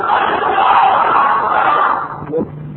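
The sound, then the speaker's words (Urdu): A crowd of many voices shouts Allahu Akbar together in reply to a takbir call at a religious gathering at Darul Ifta wal Irshad, a loud sustained roar for about two seconds that fades out near the end. “نعرہ تکبیر”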